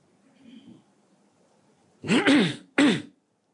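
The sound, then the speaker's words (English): A person clears their throat in three gruff, rasping bursts, the first two run together and the third follows after a brief pause, with faint murmuring before them. “See, now whenever I have to clear my throat, you know I'm still recovering and there's little bits of it left still.”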